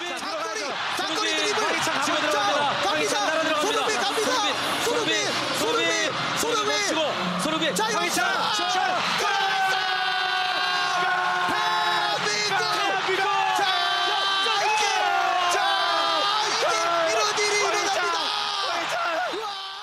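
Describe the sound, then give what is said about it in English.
Excited Korean sportscasters yell and cheer as Son Heung-min sprints upfield and Hwang Hee-chan scores an injury-time World Cup winner for South Korea. Loud, sustained overlapping shouting and whoops run throughout. “That was the sound of our enthused KBS sportscasters watching as Team Korea's talisman Son Heung-min sprinted up the pitch and found teammate Hwang Hee-chan,”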